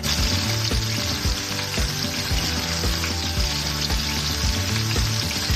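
Chicken frying in olive oil in a pan gives a continuous loud sizzle and hiss, dotted with small crackles and pops, with no voices over it.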